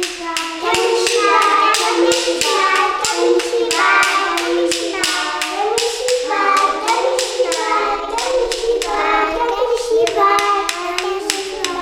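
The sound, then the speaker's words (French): Children tapping out a steady, fast beat, with many loud, even taps across the whole stretch, to call others over to see a story; children's voices sound throughout alongside the rhythm. “Les enfants tapent avec des Yoshibi pour dire de venir voir l'histoire.”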